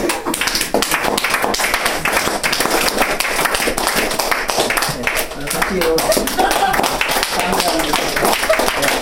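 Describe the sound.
A church audience applauds a member who donated a hymn accompaniment machine. The clapping is dense and loud, with sharp, irregular hand slaps that continue steadily from start to end.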